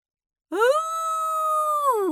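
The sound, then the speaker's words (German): A wolf howl: one long, smooth tonal cry that climbs at the start, holds a steady pitch for over a second, then drops away at the end, heard alone without other sounds. “Er warf den Kopf in den Nacken und heulte.”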